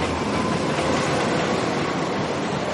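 An elevated train rolls over its tracks in a dense, steady roar of wheels and rail noise that holds at an even loudness throughout, with no separate clacks standing out.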